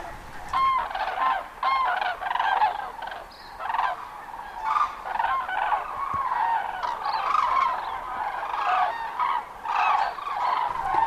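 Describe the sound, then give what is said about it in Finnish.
A flock of barnacle geese calls in a dense, continuous chorus of many overlapping honks at a migration stopover in southeast Finland. The yelping notes stay loud and steady throughout with no pause. “voi valkoposkihanhia pysähtyä Kaakkois-Suomeen yhtä aikaa jopa yli 500 000. Enemmän kuin puolet maailman kaikista valkoposkihanhista.”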